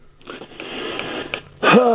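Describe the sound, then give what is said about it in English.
A man breathes heavily with a wheezy, airy rush that holds steady for over a second before breaking into a louder, strained voiced exhale. “That's all I can say. I just breathe heavy.”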